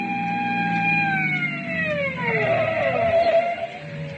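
A police car siren whose tones glide steadily downward as it winds down, over a constant low rumbling background.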